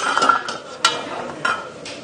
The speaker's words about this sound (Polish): Panowie, mięso do chili con carne do garnka. Razem z pomidorami.